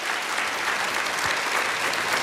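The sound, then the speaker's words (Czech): Audience applause for performers at a live event. Dense, loud clapping forms an unbroken, even wash throughout, and a little crowd noise mixes in. “Potlesk pro vás,”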